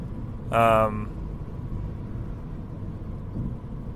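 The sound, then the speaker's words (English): Steady low road rumble from a car driving into fog, continuous throughout, with a brief tonal burst near the start. “Sorry, I'm driving into some fog, just making sure I can see.”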